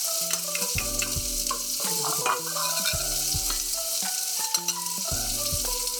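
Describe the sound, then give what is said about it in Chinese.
Garlic and seafood stir-fried with Thai basil in a pan give off a loud, steady sizzle with continuous crackling. “这时候蒜头只要微变色的时候就要关火，再加入九层塔下去拌炒。”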